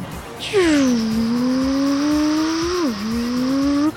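A vehicle driving in a video game gives a smooth, engine-like droning tone that sets in abruptly, sinks in pitch and then creeps slowly upward. It dips sharply once near the end before climbing again, steady and unbroken with no voices.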